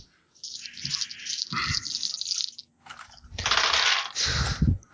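Three dice rattle and tumble during a tabletop role-playing game, giving dry clicking clatter in several bursts of varying length, the last one the loudest and longest, with no talk over it.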